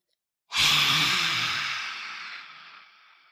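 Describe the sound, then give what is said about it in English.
A yoga lion's breath, with a forceful exhale pushed out past an extended tongue. It makes one long, breathy hiss that starts strongly and fades gradually over a few seconds. “Lion's breath is where you take a deep breath in, and when you release your breath, you stick your tongue out as far as you can and you make some noise or like a hiss sound.”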